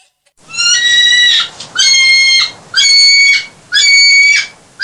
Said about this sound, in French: Écoutez, même le sanglier.